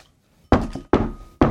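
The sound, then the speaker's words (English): Three firm knocks on the outside of a door, evenly spaced, each a short hollow thud, heard alone after a moment of silence. “Someone knocks on the outside of the door.”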